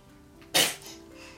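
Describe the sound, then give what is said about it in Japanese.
A single sharp sneeze bursts loudly out of a quiet background and trails off briefly, with no voices around it. “くしゃみ3連発”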